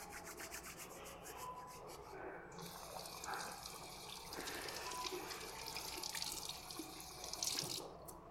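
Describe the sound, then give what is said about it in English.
Running tap water pours into a sink while hands rub and scrub beneath the stream. A steady hiss lasts the whole clip, with soft friction sounds layered over it. “I'm gonna wash our hands.”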